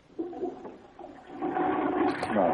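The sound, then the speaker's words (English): A toilet flushes in a bathroom with gurgling, rushing water that builds and grows louder through the second half as the bowl empties. “Can you flush the toilet once and I'll show you what I'm talking about?”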